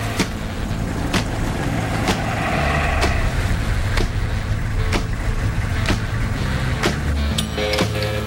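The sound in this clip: A military Hummer drives at night, its engine a steady low rumble with sharp ticks recurring through the drive.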